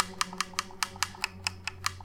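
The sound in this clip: Buttons on an original Xbox One controller click in a quick, even run of about ten sharp, light clicks over a low background hum.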